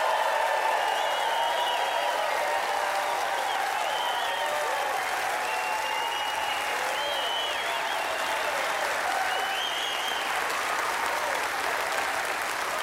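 A studio audience at the Opera House in Silver Dollar City cheers and applauds, a loud, continuous roar of clapping with whistles and whoops rising above it for about thirteen seconds.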